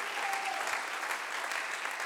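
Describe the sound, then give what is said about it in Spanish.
A church audience applauds during a bilingual worship service: dense, steady clapping from many hands fills the whole clip at an even level, with no pauses and no clear voices above it. “Somebody clap your hands unto him and bless his name. Dale un fuerte aplauso el día de hoy.”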